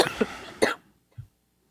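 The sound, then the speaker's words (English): Coughing and throat clearing from phlegm at the back of the throat: a short cluster of harsh, raspy coughs, then one louder cough, then a brief, faint, low throat grunt. “See, this is what happens when you drink dirty sodas. You get all that phlegm in the back of your throat.”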